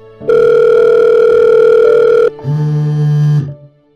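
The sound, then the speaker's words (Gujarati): Telephone ringback tone of a call played over a loudspeaker: two long steady electronic tones, the first higher and lasting about two seconds, the second lower and shorter, loud and alone. “Phone કરું ને અડધી રીંગે phone ઉપાડીએ. જોવું છે તમારે? જોવું છે અડધી રીંગે. Loud speaker કરીને બતાવું યાર.”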